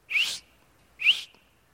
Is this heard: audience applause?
no